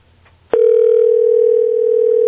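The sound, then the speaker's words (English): Ringing tone of an outgoing telephone call: after a brief quiet moment, a single steady mid-pitched tone starts abruptly and holds at an even level to the end, with no talk. “We got him ringing.”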